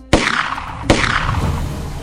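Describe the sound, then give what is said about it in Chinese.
Two sharp gunshots fired in a second-floor room, about three quarters of a second apart. Each is a loud crack that trails off into a long, fading rumble. “就在这时候，响起两记枪声”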